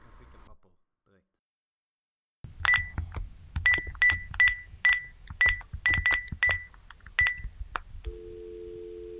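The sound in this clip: A telephone number is dialed to call a political party's office, a quick run of many bright keypad tones in an uneven rhythm, followed by a steady line tone.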